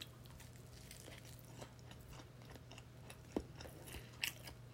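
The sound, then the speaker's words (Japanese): Faint bites and chewing of bacon, a few soft crunchy clicks over a steady low hum, with a couple of sharper crunches near the end. “今中身のベーコンだけ取って食べたんですけど、美味しいですね。”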